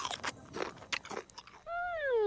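A crunchy Nabisco snack is bitten and chewed in several sharp, crackling crunches, followed by a sustained tonal hum.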